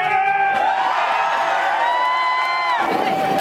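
Hundreds of onlookers cheer as a man takes his final dive from a ladder into a lake: loud, continuous shouts and whoops with long held yells throughout.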